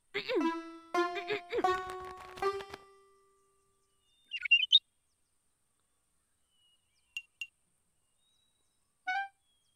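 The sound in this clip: A voice sings in imitation of a bird's song, with a short run of bright, warbling notes followed after pauses by a few isolated high chirps.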